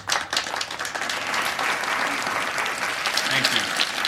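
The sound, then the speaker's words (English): Dozens of people on their feet applaud after a speech, a dense, steady wash of clapping that holds loud for the whole stretch with voices mixed in. “That sound is the sound of dozens of people standing up and applauding a speech with the line, "Geometry, wisdom, tangerines, so eat your soup."”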